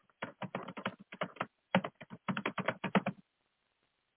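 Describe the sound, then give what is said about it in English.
Fingers type on a computer keyboard in quick runs of crisp clicking keystrokes, broken by a short pause midway. The clicking stops a little before the end, leaving silence. “I have typed it in because it'll be quicker because of the delay.”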